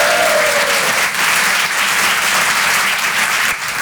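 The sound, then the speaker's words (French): A live-event audience gives the host loud applause and cheering: a thick, unbroken roar of clapping that holds at a steady level throughout. “Un maximum de bruit pour le présentateur Guillaume, s'il vous plaît, quand même. Du bruit.”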